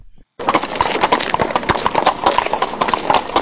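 Horse hooves gallop in a fast, uneven run of many sharp thuds that start abruptly after a brief pause and continue steadily and loudly to the end.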